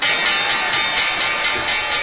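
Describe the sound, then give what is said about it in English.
The opening bell at the New York Stock Exchange rings as a loud, continuous metallic clatter that holds steady from start to end inside a dense wash of noise. “Secretary of State Condoleezza Rice did the honors, ringing this morning's opening bell on the New York Stock Exchange”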